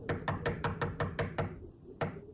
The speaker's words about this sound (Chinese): 郑洞国正在孤独地想着，门口响起了敲门声